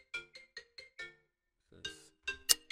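A phone rings with an incoming call, a faint electronic ringtone of five short, evenly spaced tonal beeps, then a pause before a few louder, brighter notes sound.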